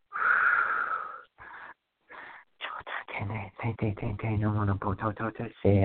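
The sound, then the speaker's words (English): Deliberate breathing in through the nose and out through the mouth during a guided blessing session, with one long, loud, airy breath followed by two short, softer breaths. A person then starts talking. “another breath in through your nose and out through your”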